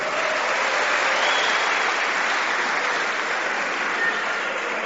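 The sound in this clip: Audience applause fills a religious talk with dense, steady clapping that stays loud and even throughout, with no voices rising above it.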